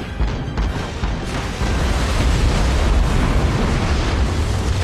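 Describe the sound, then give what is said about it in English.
A series of bombs dropped from an aircraft explode in the sea, merging into one dense, deep roaring rumble with no distinct separate blasts. It swells louder partway through and stays heavy to the end. “They fall into the water and explode in sequence. One blast is tinged with black oil.”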